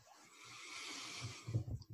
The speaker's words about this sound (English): Big breath.